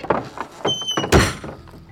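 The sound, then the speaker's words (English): An outhouse door is tried but will not open, giving a few dull knocks and rattles followed by one louder wooden thump, then quieter rattling. “The outhouse door won't open. That's odd.”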